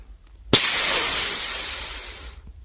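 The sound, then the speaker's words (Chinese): A valve on a capsule pod hisses air out in one loud, sustained burst. It starts abruptly, holds a bright steady hiss for about two seconds, then tapers off. “旁边的胶囊舱传出阀门活动的抽气声”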